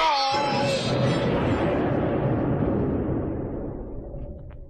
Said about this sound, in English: Oh, that powder was even more powerful than I thought. Tore a hole in the deck and blew men and ape away like leaves.